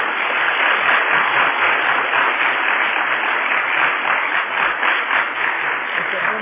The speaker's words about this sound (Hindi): इसलिए हम सभी फिर से एक बार जोर से ताली बजाकर तीनों दादियों को और जोर से,